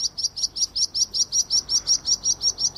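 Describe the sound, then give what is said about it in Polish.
Birds singing in the morning: many bright, high-pitched chirps repeated in a fast, even rhythm, loud and clear over faint background noise, with no voices. “Ptaszki naprawdę ładnie brzmią w poranku.”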